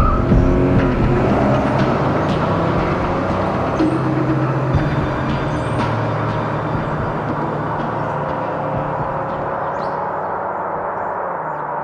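A car drives off with a sustained, loud engine roar. Its tone shifts early on, then it keeps up a steady rumble that eases slightly toward the end of the twelve seconds.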